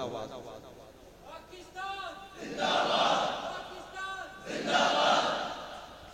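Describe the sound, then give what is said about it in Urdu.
A crowd at a packed gathering shouts the slogan Pakistan Zindabad. A single voice calls first, then two loud surges of massed chanting answer in turn, each swelling and then falling away. “کم از کم پاکستان زندہ باد کا نعرہ تو لگ سکتا ہے بلند آواز میں.”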